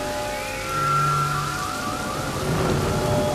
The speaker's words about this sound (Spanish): Obedeciendo las órdenes del Rey Sol, las nubes se llenaron de agua, los truenos y relámpagos se prepararon para un ataque total y a la orden de ataque de Flip, empezaron a actuar.